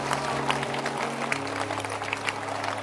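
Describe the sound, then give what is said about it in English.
An audience claps hands for a church shepherd, a steady dense wash of applause lasting throughout, with a low sustained hum from a keyboard or organ underneath. “Clap your hands for Shepherd Lois.”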